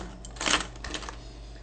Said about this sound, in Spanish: Bueno, fui a quitar llave ¿cómo se dice? El doble llave a las puertas.